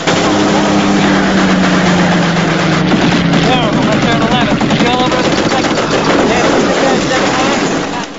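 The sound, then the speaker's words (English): Machine guns fire from a bomber's turret positions in rapid, dense bursts over a constant loud engine drone, with raised voices cutting through the din. “The crew fire at random from their various positions.”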